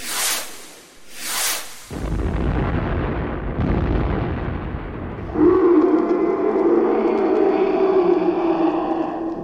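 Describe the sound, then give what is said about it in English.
Torpedoes fired in a video game: two short whooshing swells, then a sudden deep blast that turns into sustained low rumbling, with a second louder surge partway through. “would you fire the torpedoes, please? Firing torpedoes.”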